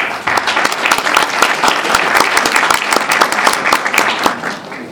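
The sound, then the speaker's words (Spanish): Audience applause at a human rights and citizenship event in Bolivia: dense, steady clapping from many hands, loud and unbroken for the full five seconds, with no talk over it. “Juan Carlos Machicado, a quien pido un aplauso, por favor.”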